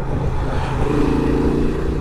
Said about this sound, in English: that raucous engine note, well, that raucous exhaust note, it's given the bike a bit of character